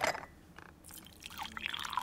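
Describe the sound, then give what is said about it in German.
Tea being poured in a Berlin apartment: a faint, soft liquid trickle and splash with light drips, quiet throughout. “Hertha Müller gießt Tee ein”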